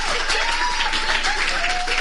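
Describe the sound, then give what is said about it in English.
Audience applause honouring a professor at an event: dense, steady clapping from many hands that stays even in loudness throughout, without any talk. “I know no one is going to get the opportunity to give her a round of applause.”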